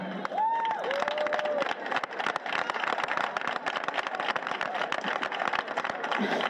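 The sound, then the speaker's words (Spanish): Sustained audience applause at a Malas Madres community event attended by the head of government. The clapping stays dense and even throughout, and a voice is briefly heard near the start. “no aplaudáis mucho porque si no empiezo a llorar otra vez.”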